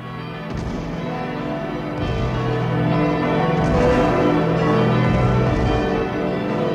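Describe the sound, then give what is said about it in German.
Church bells ring in a dense, overlapping peal, their sustained metallic tones swelling with fresh strikes every second or so and growing a little louder toward the middle before easing slightly at the end. “Unter Glockengeläut und Kanonendonner wurden die Gesandten des Mars in allen Hauptstädten Europas jubelnd begrüßt.”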